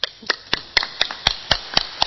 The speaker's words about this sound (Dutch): Dank jullie wel. En wij klappen.